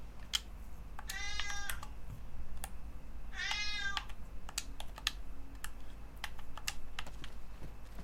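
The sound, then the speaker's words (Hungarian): A cat meows twice, complaining while it waits for its lunch. The drawn-out cries are spaced a couple of seconds apart over quiet computer keyboard typing, whose steady clicks run through the whole clip. “A háttérben a cicát halljátok egyébként, aki nehezményezi, hogy még mindig nem kapott ebédet.”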